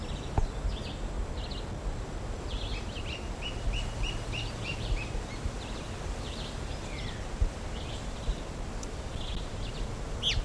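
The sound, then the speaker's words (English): Alarm notes from a bird near its nest: many faint, short, high chirps repeated at irregular intervals over a steady background hiss. “Alarm notes given near the nest.”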